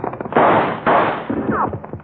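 Gunshots in a western radio drama shootout, two loud blasts in quick succession, each with a booming decay, then a softer rumbling tail.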